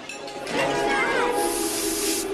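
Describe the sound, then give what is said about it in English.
Fixing spray hisses from a can onto prosthetic skin: after a short quiet moment, a bright, steady aerosol spray starts and continues to the end. “Sanji is using fixing spray to put his prosthetic back into place.”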